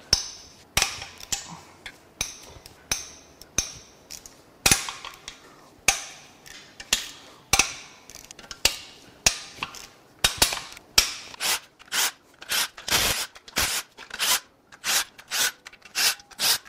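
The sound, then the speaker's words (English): Loose oil pan bolts being cracked free: many sharp metallic snaps and clicks, spaced apart at first, then coming in a quicker, regular run through the second half. “All right, let's go ahead and crack the oil pan bolts loose.”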